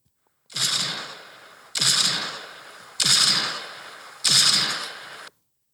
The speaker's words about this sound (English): It's the handgun